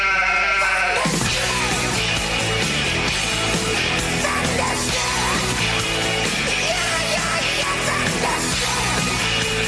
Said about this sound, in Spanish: Las ovejas se están rebelando. No me digas. Dios mío. Aquí hay algo. El rebaño está a punto de llegar.